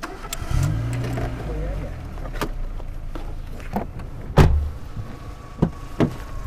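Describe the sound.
A car engine starts in cold weather and settles into idling to warm up: a low rumble swells early, then holds steady beneath a few sharp clicks and knocks.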